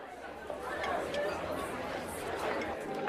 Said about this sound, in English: Andy Thornell arrives at a bustling restaurant. Groups of people stand together, socializing. Andy makes his way through the crowd and joins Jack at a table.